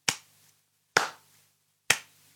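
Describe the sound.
Three sharp hand claps beat out the syllables of a word in a children's reading game. They are evenly spaced about a second apart, each crisp and quickly decaying, with nothing else heard.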